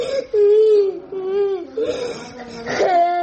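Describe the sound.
A seven-year-old boy, hospitalized and in pain after an operation, cries and whimpers in a wavering voice. The sobbing pitch rises and dips over about three seconds, with a sharper, higher cry near the end.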